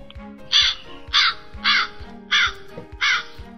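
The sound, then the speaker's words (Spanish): A crow caws five times, each harsh, loud call evenly spaced in a steady rhythm over a low background hum. “A ver, vamos a ver si puedo encontrar aquí el graznito de un cuervo,”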